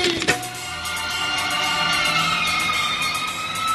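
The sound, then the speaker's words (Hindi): A fire brigade siren sounds as a steady, sustained tonal wail with strong harmonics, holding a loud, even level throughout after a brief sharp hit near the start. “छेती छेती दसो किते अग लग गई fire brigade वाली घंटी बज गई”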